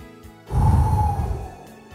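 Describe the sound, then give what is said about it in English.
A single deep breath drawn in before a breath prayer, a soft, airy rush that swells and then tapers over about a second, with faint tonal music sustained underneath. “Let's take a breath and have a prayer.”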